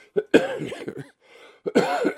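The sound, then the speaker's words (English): Harsh, hacking coughs from a person with a lingering cough after an illness, coming in two short bursts separated by a brief quiet pause, with no talking. “Excuse me, I still got this cough.”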